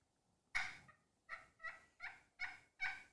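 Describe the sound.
A hunter works a turkey call, making soft, quiet yelping notes. There are six short clucking yelps, the first on its own and the rest coming in a fairly even rhythm.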